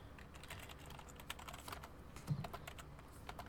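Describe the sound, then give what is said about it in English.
Rapid typing on a computer keyboard: many quick, irregular key clicks at moderate loudness, with a louder tap or two, alone without speech. “Oh my gosh, I can't type today.”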